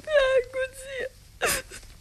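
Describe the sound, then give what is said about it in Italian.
A woman cries with drawn-out, wavering wails and whimpering moans, broken by short pauses, followed by a sharp, breathy sob. “E tu, Leonilde, ma perché piangi?”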